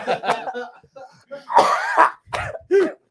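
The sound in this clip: Harsh coughing from a person choking after a French inhale of cigar smoke: a few rough, loud, breathy coughs in quick succession, preceded by strained voiced throat sounds.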